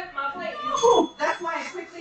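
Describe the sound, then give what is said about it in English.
A bright bell ring, struck quickly, rises briefly above people talking and carries a clear metallic ringing tone. “That's why I quickly hit the bell”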